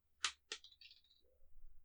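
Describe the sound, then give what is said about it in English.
Dice dropped on a table give two sharp, bright clacks in quick succession, followed by a brief, lighter rattling patter as they settle; the sounds are faint against a quiet background. “I dropped my dice.”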